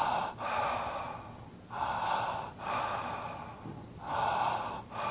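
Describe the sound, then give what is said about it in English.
Connected breathing, with in-breaths and out-breaths flowing into each other without pause: several deep, airy breaths rise and fall in a continuous rhythm, each swell followed by a brief dip. “a connected breath is a breath where the in-breath and the out-breath flow as a unit, and it sounds like this.”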